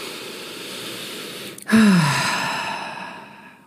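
A deep breath exhaled through the mouth during a guided relaxation meditation: one long, audible sigh that begins abruptly midway, starts loud and fades slowly, with faint background noise beforehand.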